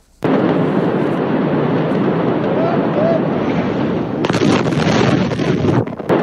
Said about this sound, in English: Massive blast rocking the Lebanese capital of Beirut, creating a massive mushroom cloud above the city, which could be seen and felt from miles away.